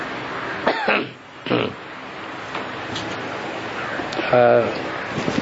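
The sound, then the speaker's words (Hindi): Coughing during a spiritual discourse: two harsh, rough coughs come close together over a steady background hiss, and a voice is heard briefly later on. “मुरली के time पे खांसी खांसी की टपक पड़ी।”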